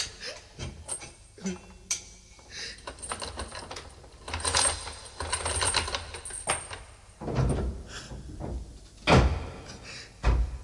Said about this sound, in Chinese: 快啲开锁啦，我即刻押佢出去噶。 好啊，咁我而家开俾你啊。